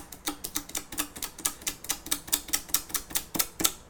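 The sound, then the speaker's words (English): Leftover sticker residue being scraped off a case with rapid, regular scratchy strokes, each a short bright rasp repeating at a steady pace, fairly quiet and without talking. “My OCD, I'm trying to remove all the stick that got left over on the case. Because I hate leaving behind sticker stick.”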